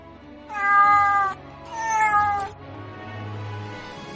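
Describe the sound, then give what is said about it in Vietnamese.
Cats meowing: two clear, drawn-out meows in close succession, followed by a low steady hum with no voices. “Người và mèo nói một hồi, hai con mèo cát được Hà Ninh ôm lên”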